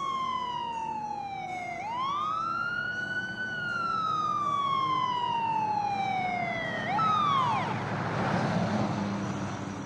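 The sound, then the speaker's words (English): An ambulance siren wails as it pulls into an empty hospital parking lot, its tone sweeping slowly up and down in long cycles over a steady low engine rumble, loud throughout. “The ambulance pulls into the hospital's empty parking lot.”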